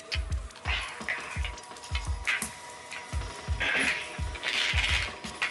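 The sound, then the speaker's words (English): A slot machine is played and coins drop, giving a steady rhythm of many low mechanical clunks with bright metallic clinks and jingles between them. No voices are heard. “she's playing the slots.”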